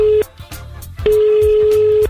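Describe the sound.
Telephone line tone on a call placed to the mayor's secretariat in Salerno: a steady mid-pitched tone sounds briefly, stops, then returns for about a second, over faint rhythmic background sound.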